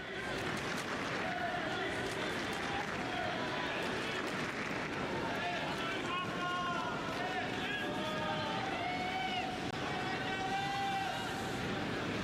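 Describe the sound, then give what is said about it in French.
Crowd ambience fills Court Philippe Chatrier during a Carlos Alcaraz tennis match, a continuous dense murmur of many voices with scattered louder calls rising above it. “Et vous l'entendez, une ambiance toujours aussi impressionnante sur le court Philippe Châtrier.”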